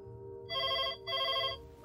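A telephone bell rings for an incoming call: two clear, evenly spaced ring bursts with a short gap between them, bright and buzzing over a low, steady hum, with no voices.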